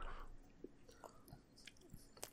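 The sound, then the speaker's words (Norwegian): Someone bites into a bun and chews, with quiet, moist crunches and soft mouth sounds. A few separate bites are spaced across the moment at low volume. “Nå tar jeg, nå tar jeg en bit.”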